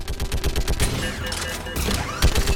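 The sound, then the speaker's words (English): Automatic gunfire in a video game as a squad fires at anything near a running player: rapid bursts of sharp shots in quick succession, dense and fairly loud, with brief gaps between volleys. “we're just shooting anything that gets near his path.”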